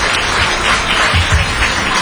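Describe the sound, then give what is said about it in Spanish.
Applause from a gathered crowd: many hands clap in a steady, dense, even patter at a fairly loud level, with no voices. “Un aplauso muy merecido para ustedes y para el presidio.”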